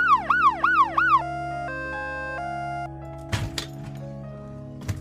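Ambulance siren wailing in a few rapid up-and-down sweeps, loud and alone, then giving way to steady held tones and a couple of sharp clicks.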